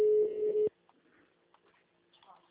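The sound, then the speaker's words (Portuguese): A ringback tone sounds on a call to a bank branch: one steady, mid-pitched tone holds for under a second, then cuts off into near silence with only faint scattered noises. “Tô telefone chamando, o telefone da agência chamando.”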